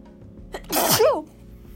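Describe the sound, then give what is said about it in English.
A single sneeze from a person who is sick: a short breath intake, then one sharp, loud burst that ends with a brief voiced tail, set against faint background noise. “Sorry, I sneezed.”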